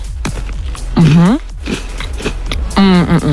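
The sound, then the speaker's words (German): Biting into and chewing a cookie with caramel topping: short crunchy crackles and chewing noises, with two drawn-out voiced hums of enjoyment over them. “leckeren Keks mit Karamell-Topping. Beiß doch gerne mal rein und probier dich.”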